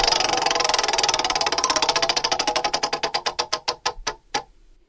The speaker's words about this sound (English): Let's spin the wheel.